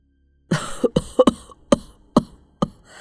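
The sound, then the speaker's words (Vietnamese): An elderly man in a house gives a run of harsh, hacking coughs, about seven abrupt bursts in quick succession with short gaps between them. “có tiếng ho khụ khụ và tiếng khạc nhổ liên hồi, rồi một tiếng quát thè thé phát ra từ gian nhà giữa.”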